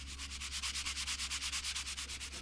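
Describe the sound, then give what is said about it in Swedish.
Filler is sanded down on a repair in a garage with fast, even back-and-forth strokes. Many rhythmic, raspy scrapes pulse steadily throughout, with no voices. “Sliparbetet tar aldrig slut. Så fort han slipar ner spackel vid en lagning finns det alltid en ny att fortsätta med.”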